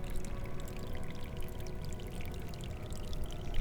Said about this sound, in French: L'eau s'écoule, impassible.